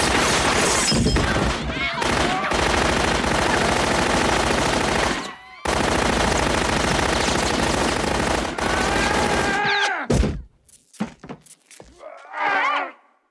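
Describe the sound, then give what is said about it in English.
Tommy gun fire in a holodeck club scene: long, dense bursts of rapid automatic shots run for about ten seconds with one short break, then give way to quieter scattered sounds. “Oh, hey! Oh! Tommy gun.”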